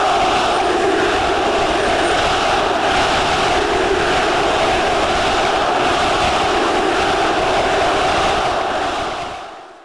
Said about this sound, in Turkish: Beşiktaş taraftarları da Trossard'ın imza töreninde yıldız futbolcunun transferini ne kadar istediğini tezahüratlarla gösterdi.